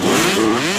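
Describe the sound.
A motocross bike engine revs loudly in a short, continuous burst, its raspy, buzzing tone wavering slightly in pitch throughout, with no voices.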